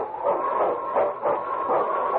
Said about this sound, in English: It's King, swiftest and strongest lead dog of the North Country, blazing the trail for Sergeant Preston of the Northwest Mounted Police